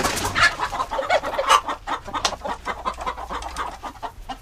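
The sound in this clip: Chickens cluck inside a stable, a busy run of many short, choppy clucks and squawks in an uneven rhythm, some louder bursts standing out over a soft background murmur.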